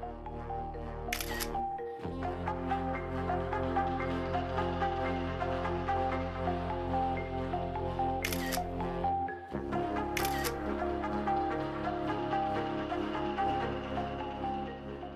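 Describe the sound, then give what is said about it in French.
Three sharp camera shutter clicks punctuate quiet, steady music, one near the start and two closer together later on. “Tu entends le bruit des objectifs?”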